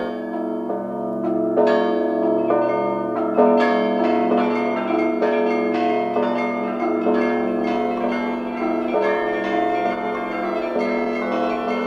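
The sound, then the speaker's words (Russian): Church bells ring for the Saturday evening vigil service on the eve of Sunday: many struck, ringing tones overlap in a steady, loud peal, with fresh strikes landing every second or so and no voices. “Как раз в это время ударили к всенощной, канун воскресенья. Две маленькие девочки оглянулись на церковь, чтобы послушать звон.”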